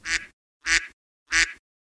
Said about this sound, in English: Oh, the quack.